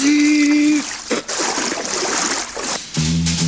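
Water churns and splashes as a man dives into a lake at night, a loud, rough burst lasting about two seconds between brief tonal sounds.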